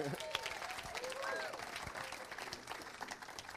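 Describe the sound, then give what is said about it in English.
Church audience applauding to welcome a man who is about to share his story, steady faint clapping from many hands with a voice speaking over it. “Everybody give him a hand.”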